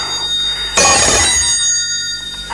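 A telephone rings in one bright, buzzing burst that rises over a steady tonal hum, then fades back to the hum with no talking.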